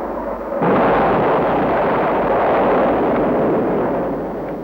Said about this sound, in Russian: А это уже настоящий бой. Вот как звучит стена такого боя. Отбивается нападение вертолетов.